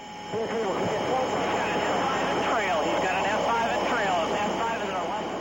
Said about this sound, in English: That's the sound of an actual cockpit recording made while pilot Frank Bernard was on a combat training mission in Canada. This was not a simulation.